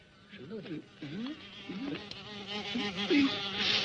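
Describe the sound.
Wasps buzz around a wasp nest, their droning hum wavering up and down in pitch as they fly about, continuous and moderately loud throughout.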